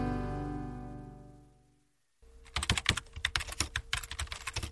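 Typing on a computer keyboard while someone writes an online review of a yeast strain: quick, irregular clicking keystrokes start after a sustained tone fades to silence and continue steadily to the end.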